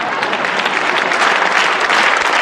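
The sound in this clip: Audience applause: dense, steady clapping that stays loud and even from start to finish, with no voices over it.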